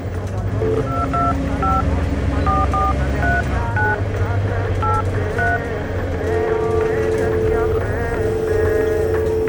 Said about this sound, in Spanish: Ya mismo la llamo a ver si nos puede hacer una consulta.